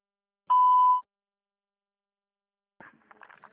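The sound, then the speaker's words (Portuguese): A voicemail beep after a recorded message: one steady high beep lasting about half a second, then silence, then a faint stretch of rustling noise. “Por favor, deixe sua mensagem após o sinal.”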